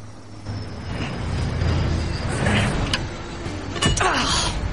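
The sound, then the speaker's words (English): A military pickup truck pulls up across the road, its engine giving a steady low rumble that swells slightly and holds, with a couple of sharp clicks near the end. “A military pickup truck pulls up across the road. It's driven by the glamorous female captain.”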